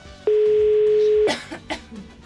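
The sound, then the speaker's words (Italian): Coughing follows a long, steady electronic tone: a few short, rough bursts after the tone stops, the last ones fainter. “Sentite questa tosse intanto.”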